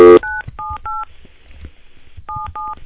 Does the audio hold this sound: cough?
no